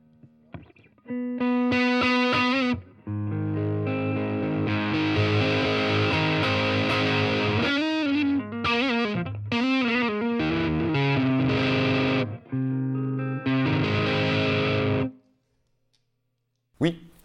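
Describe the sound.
An electric guitar plays through an amplifier with the gain turned up to about three-quarters, giving a heavily distorted, compressed tone. Loud strummed chords and riffs come in bursts with short pauses, then the playing stops.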